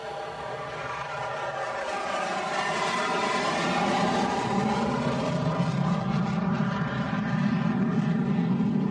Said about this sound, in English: Protein pills taken, helmet on, commencing takeoff.